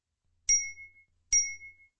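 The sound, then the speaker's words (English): Two notification chimes: a pair of bright, clean dings, each a sharp strike followed by a short ringing tail, separated by silence. “As he approached the man near the barrels, Jason received two notifications.”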